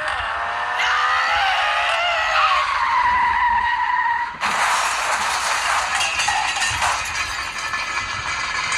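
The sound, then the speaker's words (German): An old Mercedes 190 taxi skids with long, loud, wavering tire squeals, then crashes into a tree with a sudden burst of broad, harsh noise that persists for several seconds. “Der ranzige 190er Mercedes des eben genannten Taxifahrers war also nun um einen Baum gewickelt”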